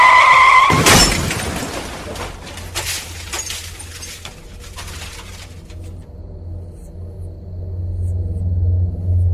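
Tires screech briefly, then a car crashes hard in a late-night road accident after one in the morning. Breaking glass and scattering debris follow for several seconds before the noise fades into a steady, low rumbling hum.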